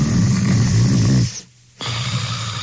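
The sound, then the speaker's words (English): A person snoring loudly while sleeping at night. A long, rough, rumbling snore is followed by a brief quiet gap, then another deep snore begins. “This is the sound of one of our customers sleeping soundly at night.”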